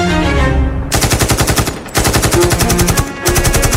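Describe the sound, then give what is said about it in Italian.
Loud automatic gunfire from an AK-47 Kalashnikov rifle in the Palestinian territories: three bursts of rapid, evenly spaced shots separated by brief pauses, with no voices. “Si sentono quattro spari, sono i colpi della K-47, un Kalashnikov di un palestinese.”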